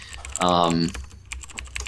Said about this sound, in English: I'll type in strange just to see if anything pops up